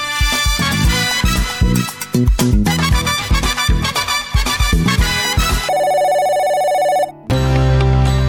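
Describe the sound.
A telephone ring, a steady electronic trilling tone lasting about a second and a half, comes after a passage of loud rhythmic music and is followed by a lower sustained tone.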